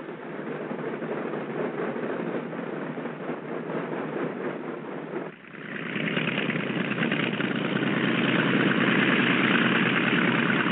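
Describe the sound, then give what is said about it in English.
Light aircraft engine idling while taxiing to the warm-up block: a steady low drone runs throughout, with a brief dip just past midway before it resumes slightly louder and holds to the end. “Control having given us permission, we taxi over to the warm-up block.”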